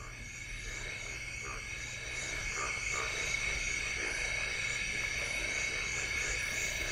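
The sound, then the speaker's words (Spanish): A frog or toad croaking, played in an animal-sound guessing game: continuous, rapid pulsed croaks over a steady droning tone, fairly quiet and unchanging throughout. “Algún tipo de rana. Mira, no vas muy desencaminado. O sapo, o cosa verde. Rana, sapo, verde.”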